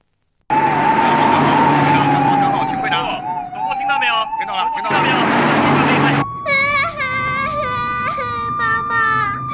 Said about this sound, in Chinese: 加速，快开！拐拐，向右拐。